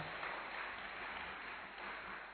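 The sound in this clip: Congregation applauding during a church service, a faint, steady wash of many hands clapping throughout, with no voices.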